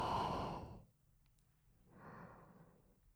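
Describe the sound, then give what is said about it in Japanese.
Slow human breathing in and out: a soft, airy breath lasting under a second, a pause of near silence, then a second, quieter breath, all faint and close. “力が抜けていくね。吸って吐いて”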